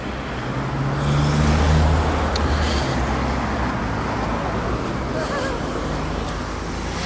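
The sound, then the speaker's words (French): Road traffic noise heard at the roadside, a continuous broad hiss and rumble of passing vehicles, with one low engine swelling louder early on before settling back into the steady flow. “j'avoue que il y a un petit peu de bruit parce que je suis au bord de la route”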